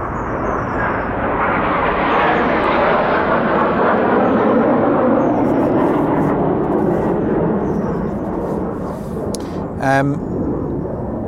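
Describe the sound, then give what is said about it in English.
A military jet flying overhead gives a loud, continuous, broad roar that fills the whole stretch at a steady level. “it's a military jet going over”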